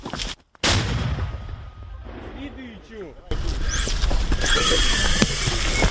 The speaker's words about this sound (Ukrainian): Постріл! Постріл!